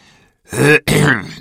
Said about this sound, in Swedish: harklade sig och tog till orda.